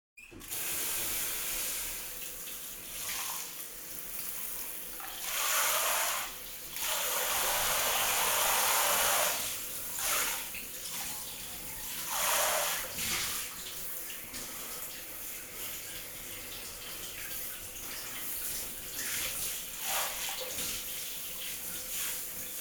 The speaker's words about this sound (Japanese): 全身あわあわだね。流してあげる。